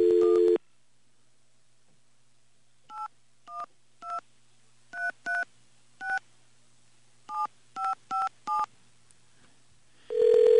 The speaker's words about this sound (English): so I'm going to try again. I'm going to dial this here.